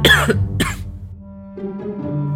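Two short, light coughs from a person, the first slightly longer than the second, followed by a steady low background hum.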